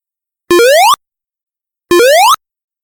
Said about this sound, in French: C'était le bruit de Sonic quand il saute.